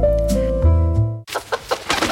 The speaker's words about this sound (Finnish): kukko saapuu paikalle ja pukeutuu punaiseen.